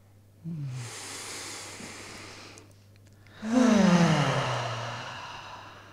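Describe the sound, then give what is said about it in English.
Deep breathing during a group breathing exercise: two long, airy breaths, the second louder and fuller than the first, with quiet between them. “maybe we can all take a breath.”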